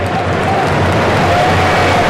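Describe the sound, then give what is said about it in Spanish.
Stadium crowd at a football match as Pedri is substituted off, a loud, continuous roar of mixed booing and timid applause with no distinct breaks. “Entre abucheos y aplausos tímidos va a salir del terreno de juego Pedri.”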